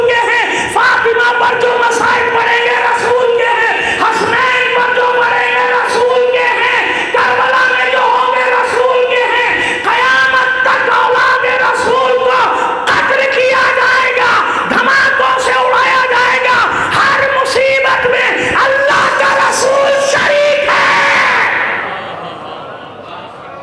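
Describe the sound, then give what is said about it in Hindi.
A crowd shouts back a chanted slogan in unison, many voices overlapping in a loud, sustained roar that holds for about twenty seconds before dropping off at the end. “मेरे बच्चे ने बड़े शौक से नारा लगाया मगर जवाब वैसा नहीं आया।”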